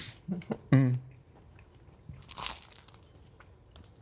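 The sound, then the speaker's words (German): Chewing a big bite of sandwich topped with coleslaw, sweet mustard and braised meat: a few crunchy, wet bursts come first, then softer, quieter mastication with one more crunch later. “Ich hab zu groß abgebissen.”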